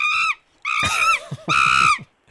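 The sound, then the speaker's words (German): A monkey screeches in three shrill, harmonic bursts as a card sound in a memory matching game. The calls are loud and sound on their own, with short silent gaps between them. “Ein kreischender Affe.”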